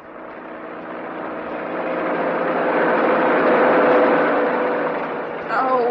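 An open truck driving fast over rough roads, heard as a continuous loud engine roar and rumble that swells gradually, holds, then eases slightly near the end.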